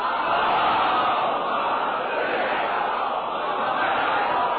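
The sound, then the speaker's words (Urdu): Crowd at a religious gathering chanting the salawat slogan together, a dense, continuous roar of many voices that holds steady at an even loudness for the whole stretch. “مومن اس مجمع سے نعرہ سلوات بھی لگا دے،”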